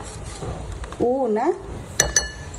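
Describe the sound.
A spoon clinks against a small pot while ground cinnamon is stirred into a mixture, with two sharp metallic taps near the end following a brief voice sound.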